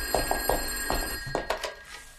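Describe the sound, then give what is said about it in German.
A telephone rings at a house, short ringing bursts with a bright tone that repeat quickly over about two seconds, fairly loud with no voices. “klingelt auf Rosenborg das Telefon”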